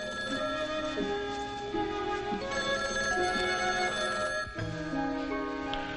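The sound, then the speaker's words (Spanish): A telephone rings beside a swimming pool. Its steady electronic ring holds stepped tones that shift in pitch, sounding loud and continuous through the whole stretch with no voices. “sale de la piscina para coger el teléfono.”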